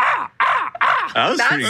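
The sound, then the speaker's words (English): A person imitates a crow's caw with a series of harsh, raspy, nasal caws in short bursts separated by brief gaps. The voice stays loud and harsh throughout. “How about a crow? How about a crow?”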